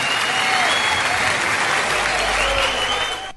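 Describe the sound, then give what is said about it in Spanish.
The audience gives dense, sustained applause for musician Gustavo Santolalla. It holds at an even loudness before tapering off at the very end. “fuerte aplauso para Gustavo Santolalla, que tiene mucho que ver con esto.”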